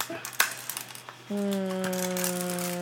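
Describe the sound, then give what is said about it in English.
A small toy pinball machine is played, opening with a quick run of sharp plastic clicks and rattles, then a steady electronic tone that holds to the end. “Oh, what is this game called? Like a pinball machine? Oh, yes. A pinball machine.”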